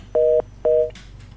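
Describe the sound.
A phone dials a mobile number with two steady electronic dialing tones, each lasting about a quarter second with a short gap between them, followed by a faint click, with no voices.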